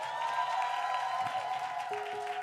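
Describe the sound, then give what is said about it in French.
Cheering and applause from a church audience during a Sunday morning service. The sound is a continuous, fairly loud wash of clapping and crowd noise that holds steady from start to finish. “Est-ce qu'on peut acclamer l'équipe multimédia, s'il vous plaît? Est-ce qu'on peut acclamer l'accueil? Est-ce qu'on peut acclamer le ministère des enfants?”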